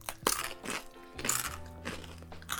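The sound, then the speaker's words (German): Rice crackers crunch quietly as they are bitten and chewed, a few crisp, dry snaps spaced apart, each with a brief crackling tail. “Ah ja, richtig knackig. Hm. Mmh. Hm. Und das schmeckt nach Reis. Ja, es sind Reiscracker.”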